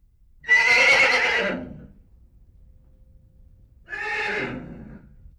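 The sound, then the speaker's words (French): A horse neighs twice, with a quiet pause between the calls. The first whinny is longer and louder, and the second is shorter and a little softer. “C'est le cheval.”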